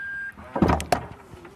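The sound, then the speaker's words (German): A large SUV's powered tailgate opens electrically: a short steady beep, then a latch clunk and a whirring motor with a couple of sharp clicks, all fairly quiet. “Wie du hörst, öffnet sich die Heckklappe natürlich elektrisch.”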